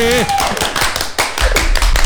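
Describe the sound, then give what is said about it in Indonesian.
Hand clapping in a studio, a few sharp scattered claps mixed with people talking, plus a couple of dull low thumps near the end. “Wey, tepuk tangan dong.”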